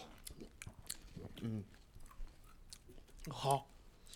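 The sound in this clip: Chewing on sesame-seeded Japanese beef jerky makes soft, moist clicks and small crunches. The sounds are faint, with a couple of brief vocal sounds mixed in.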